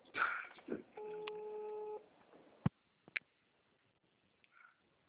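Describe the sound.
Ringing tone of an outgoing telephone call, heard as one steady electronic burst lasting about a second. A brief voice comes before it, and a few faint clicks and small noises follow.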